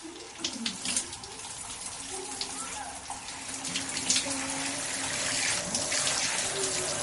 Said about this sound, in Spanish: Sentado junto a la bañera, se limpia las manos con la ducha.